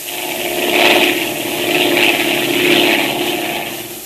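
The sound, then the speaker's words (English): An airplane engine drones in flight as a radio drama effect, for a plane whose landing gear has been tampered with. The steady mid-pitched roar swells and eases in slow waves, with no voices. “At just that moment, the pilot discovered that the undercarriage of the plane had been tampered with, that it was impossible to lower the landing wheels.”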